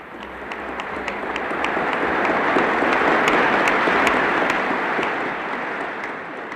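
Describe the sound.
An audience applauds enthusiastically as Bertolt Brecht is pinned with his International Stalin Peace Prize medal. Dense clapping swells to a peak mid-way and then eases, with a few sharper individual claps standing out.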